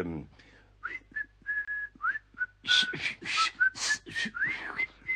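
A person whistles a lively tune in a radio play, with short bright notes that often slide up or down, the phrases growing fuller and busier toward the end.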